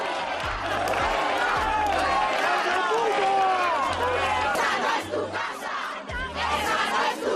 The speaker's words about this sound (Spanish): Es gente protestando contra los ocupas.